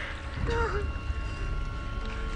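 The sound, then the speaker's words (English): Water splashes and sloshes in open water around two people clinging to each other, a low churning with faint gurgling that stays quiet and continuous. “Water splashes up into his mouth and he spits it out.”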